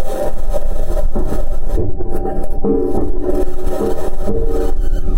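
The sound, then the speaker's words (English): Metal wheels of a Mars rover clanking over the Martian surface, a loud, continuous rattling, grinding rumble with uneven scraping texture and no distinct separate hits. “NASA says this sound is the clanking of metal wheels on the Martian surface.”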